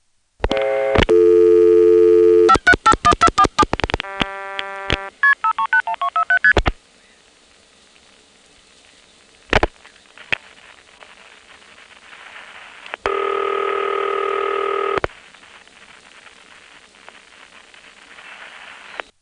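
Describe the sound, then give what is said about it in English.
Multi-frequency telephone signaling tones on a call through the Occoquan exchange: a loud, rapid run of short tonal bursts, then a few sharp clicks and a steady sustained tone near the end, with no voices. “This one has loud Occoquan MFs, but you can't hear the RP.”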